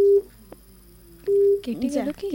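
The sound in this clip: Steady electronic line tone heard on a phone call-in after the call cuts off. A short beep comes first, then a longer beep after a click, followed briefly by a voice.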